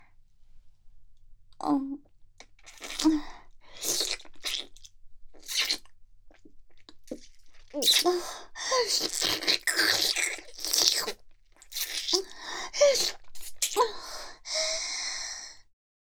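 Wet sucking and licking on fingers, with a series of irregular, fairly faint slurping and smacking bursts separated by breaths and short silences.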